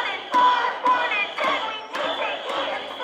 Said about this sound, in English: Hundreds and hundreds of students marched through campus with signs and chants.